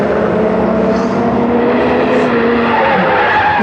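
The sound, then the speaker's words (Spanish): A car with sabotaged brakes gains more and more speed: a loud, continuous roar of engine and tire noise with a steady droning tone underneath, unbroken from start to finish. “El auto va ganando más y más velocidad.”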